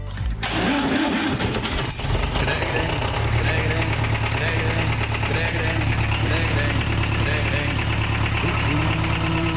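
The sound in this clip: A tractor engine running with a low, continuous rumble that starts abruptly and then holds steady throughout, while voices sing along over it.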